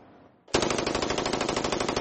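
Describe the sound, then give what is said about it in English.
Rapid gunfire from a bump-stock equipped weapon, bursting in abruptly half a second in as a loud, unbroken stream of fast shots that runs to the end. “Bump stocks are aftermarket additions that allow weapons to fire hundreds of bullets a minute.”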